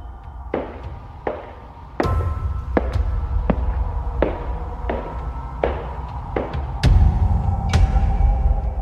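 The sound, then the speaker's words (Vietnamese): Clacking footsteps of someone returning late to a dormitory, heard as a steady, evenly spaced series of sharp knocks over a low, constant rumble. “Tiếng bước chân đi cứ lộc cả lộc cộc, sau đó lại trả lại không gian im lặng.”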